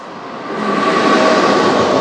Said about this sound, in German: Und da fährt ein Güterzug über die Schiene. Das heißt, ihr hört mich fast nicht.